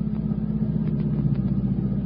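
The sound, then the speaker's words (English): Steady, low rumbling engine of a Cadillac car chasing a mail truck through traffic, an unbroken drone with no voices. “surely you can hang on to a mail truck with a Cadillac”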